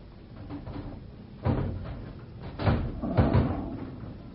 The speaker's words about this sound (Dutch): Ja, het deksel is los. Nou, maak maar open.